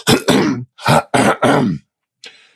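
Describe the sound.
A voice imitates someone clearing their throat at the movies, giving a rapid run of harsh, gravelly bursts followed by a faint, short final rasp.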